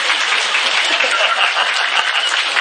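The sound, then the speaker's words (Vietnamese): Dense, steady applause from an audience at a monk's talk to Buddhist followers, many hands clapping evenly at a constant loudness throughout with no pauses or swells. “Vỗ tay lên đi, 600 không vỗ.”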